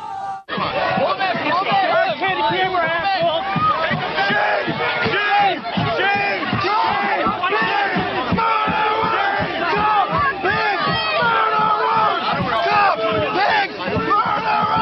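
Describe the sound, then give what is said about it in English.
Protest crowds in Beijing and New York City shout together, with many voices raised in loud, continuous chanting bursts that barely let up from start to finish. “Sounds of protest in Beijing and New York City decades apart.”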